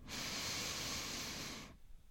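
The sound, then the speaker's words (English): One long, deep inhale through the nose: a steady, airy hiss that holds for under two seconds and then stops abruptly. “once more. Inhale.”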